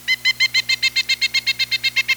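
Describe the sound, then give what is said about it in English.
Call of a pileated woodpecker: a rapid, evenly paced series of many high, ringing notes, delivered at a steady rhythm over a low, constant hum. “I can think of only one bird that arouses awe and affection in everyone who sees it. The pileated woodpecker.”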